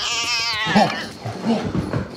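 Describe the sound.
A calico house cat lets out a drawn-out meow that slides downward in pitch, followed by softer, scratchy noise for the rest of the moment.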